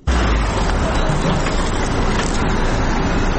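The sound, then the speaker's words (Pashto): Vehicles loaded with medical and non-medical supplies and medicines bound for health centres in Uruzgan give off a loud, continuous rumble of engine and road noise that holds steady from start to end. “دا ژغونه د هغه موټرو دی کوم چې په طبي او غیر طبي وسایلو او د غراز په درملو باندې بار دي.”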